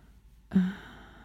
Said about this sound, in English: Do you really have to ask why I'm breathing hard?